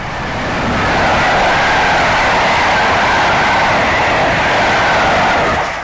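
A train rolling along the rails swells into a loud, broad, rushing roar that holds steady for several seconds and eases slightly at the very end. No voices are heard.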